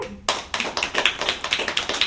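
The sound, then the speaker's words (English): Sparse audience clapping from only a few pairs of hands. Sharp claps start abruptly and carry on in a quick, fairly regular rhythm to the end. “Not enough of you are clapping.”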